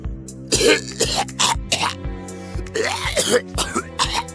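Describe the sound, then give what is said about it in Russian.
Rough, barking coughing, a run of many harsh, throaty bursts in an irregular rhythm, loud and raspy, with no talking. “Голова задрожала и зашла лающим кашлем.”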